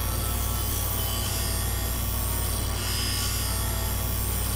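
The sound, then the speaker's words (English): A grinding machine shapes a workpiece blank by following a template, giving a steady, continuous abrasive rushing noise over a low hum that holds at an even level from start to finish, with no talking. “Then you turn on the machine. And then you grind the blank along the template, like this.”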